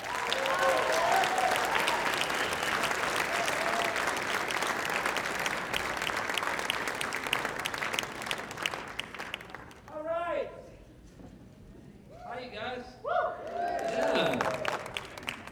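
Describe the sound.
Audience applause for the opening act at a theater concert: dense, steady clapping from a large crowd fills the first several seconds, then thins and fades as a man starts speaking over the last trailing claps.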